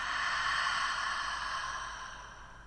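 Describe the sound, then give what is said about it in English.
A single long, deep breath during a guided breathing exercise: a soft, airy hiss that holds steady and then slowly fades, with no talking. “let's take a nice deep breath in and out.”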